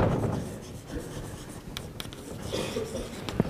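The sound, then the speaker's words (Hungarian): Scratchy writing strokes as someone writes out vehicle speed during a technical explanation of engine and vehicle speed, faint and intermittent with short irregular bursts of scraping. “hát csak jármű sebességet írok”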